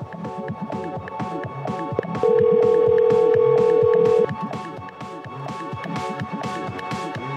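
Telephone tone during a call: a single steady, unbroken tone lasts about two seconds over rhythmic background music that keeps playing before and after it.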